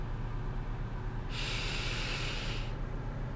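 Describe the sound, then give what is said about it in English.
A deep breath drawn in as a relaxation exercise: a soft, airy hiss that lasts about a second and a half over a steady low background noise. “Take a deep breath.”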